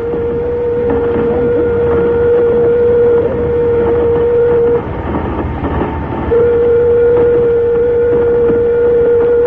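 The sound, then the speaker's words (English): A ship's emergency signal siren sounds as a sustained, steady-pitched tone over a low rumble. It breaks off once around the middle, then resumes at the same pitch. “Sound the emergency signal.”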